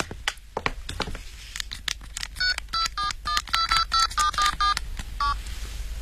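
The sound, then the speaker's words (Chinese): Touch-tone keypad beeps as a phone number is dialled from a hotel: a rapid, uneven run of many short, bright beeps, preceded by soft rustling and handling noise. “对不起，小姐，我给我们老总打个电话请示一下。”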